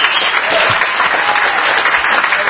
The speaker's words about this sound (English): I don't know if it deserved the healthy applause